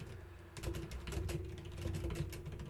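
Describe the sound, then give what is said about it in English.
Typing on a computer keyboard: a quick, continuous run of many soft, fairly faint key clicks over a steady low hum. “I can't type and talk at the same time.”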